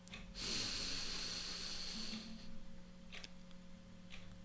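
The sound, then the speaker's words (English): A single deep breath drawn in during a guided meditation, a faint, airy inhale lasting about two seconds over a constant low hum, followed by near quiet. “Friends, let's take a deep breath in.”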